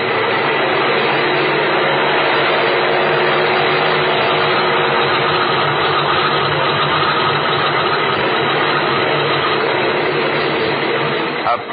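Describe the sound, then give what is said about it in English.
An aircraft engine runs before takeoff on a small plane carrying ten passengers, mail and express freight. It makes a loud, steady drone with a constant low rumble and no breaks. “You want to take off, eh? I will take off.”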